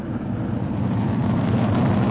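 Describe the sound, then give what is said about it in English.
A SpaceX Falcon rocket carrying a Dragon capsule for Crew 13 roars at ignition and liftoff. A deep, broad rumbling thunder holds steady and loud throughout, with no voices. “2-1, ignition, and liftoff. Go Falcon, go Dragon, and go Crew 13.”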